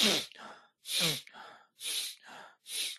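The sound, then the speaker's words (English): Breathing exercise with breath drawn in through the nose and let out through the mouth. Loud, airy breaths alternate with softer ones in a slow, steady rhythm, about four strong breaths in all. “So in through the nose, out through the mouth, but your focus is on taking in the breath.”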